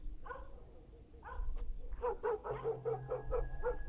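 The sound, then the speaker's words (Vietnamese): A dog barking faintly. Two separate yips are followed by a quick, rhythmic run of many short barks, with a low steady hum beneath the later part. “Bỗng nhiên người đàn ông quái dị nghe tiếng chó sủa.”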